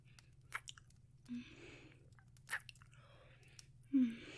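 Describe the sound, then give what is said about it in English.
Soft, wet kissing sounds between two people, faint and intimate, with a few gentle smacks and moist squishes spread irregularly over a low, steady hum. “just be quiet and let me keep kissing you”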